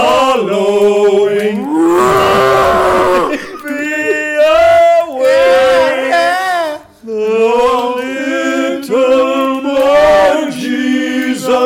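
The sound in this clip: Cattle mooing in a long run of loud, overlapping lowing calls, several drawn-out bellows following one another almost without a break.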